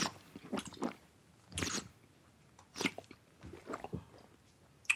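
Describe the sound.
Wine being sipped and spat out during a tasting of Schwarzriesling: a few faint, wet slurping and spitting bursts at an uneven rhythm, with quiet gaps between them.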